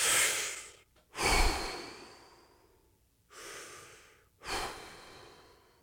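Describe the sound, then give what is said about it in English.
Deep breaths, slow and airy: four long breath sounds in two in-and-out pairs, each swelling and then fading, with short pauses between them and no talk. “Deep breaths. Deep breaths. Take a few with me.”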